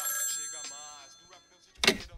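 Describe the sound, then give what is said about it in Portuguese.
A telephone rings in a quiet stretch, its electronic ring tones trailing off, then a short, louder noise bursts in near the end. “O telefone tá tocando ali, mano. Pô, mas justo agora, mano.”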